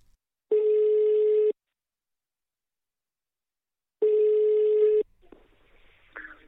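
The ringing tone of an outgoing telephone call: two long, even buzzing tones of about a second each, separated by a long silence. Faint rustling and small noises follow.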